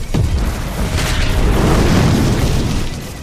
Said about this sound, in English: In the background, we see the derrick and we see it explode into flame.